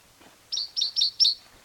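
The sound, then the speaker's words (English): A single bird sings a different song: four short, high chirps in a quick, even rhythm, fairly faint and with no voices. “same bird, different song”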